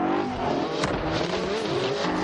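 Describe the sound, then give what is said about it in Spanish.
A car engine roars hard as it accelerates through an action-film chase, heavily driven and loud, holding a dense, steady growl with layered engine harmonics from start to finish and no voices. “Ethan acelera y lo arrolla.”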